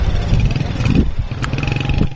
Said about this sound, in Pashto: درنو اوریدونکو دغه غږ د هغه وسلوالو طالبانو د موټر سیکلانو او موټرو دی کوم چې د افغان دولت په وړاندې وسله پورته کړې ده.